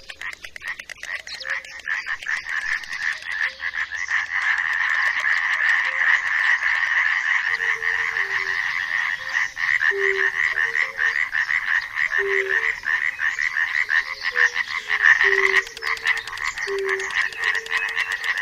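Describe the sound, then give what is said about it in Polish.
Tree frogs croak in spring in Poland, forming a dense, loud chorus of rapid rasping calls that runs steadily throughout with no pauses. “w tym roku coś tam nieznacznie, jakieś rzekotki się odzywają.”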